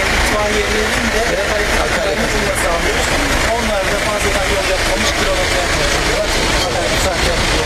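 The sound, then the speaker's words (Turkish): Municipal road cleaning trucks drive off at a vehicle presentation ceremony in a city square, their engines making a loud, steady rumble with voices talking over the noise. “Yol temizlik araçlarımız. Bunlar gidiyor şimdi.”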